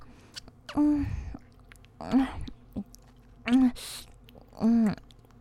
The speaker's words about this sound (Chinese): 你问我在干嘛呀？发出的声音有点奇怪。我在吃香肠呢。